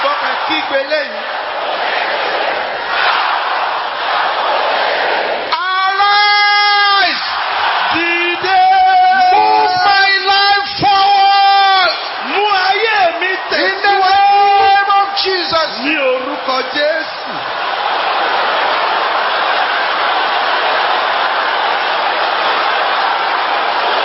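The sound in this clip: Congregation shouting during a Sunday worship service on spiritual warfare: loud, sustained bursts of many raised voices crying out together, set against a steady roar of crowd noise before and after.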